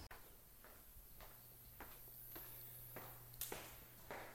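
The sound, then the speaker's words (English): Faint footsteps of someone walking around a basement, soft evenly spaced steps at a steady pace over a low, constant hum, with no talking. “I'm coming to you from my basement right now, walking through my basement, walking around my basement.”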